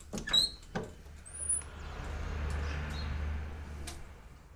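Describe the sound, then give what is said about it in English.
A window being opened, with a few brief high squeaks at the start followed by a faint, low sliding rumble that lasts a couple of seconds. “Open the window.”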